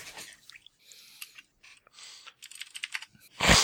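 Typing a search for Metroid on a computer keyboard: short, uneven bursts of light, clicky keystrokes with brief pauses between them, fairly quiet, with no talk.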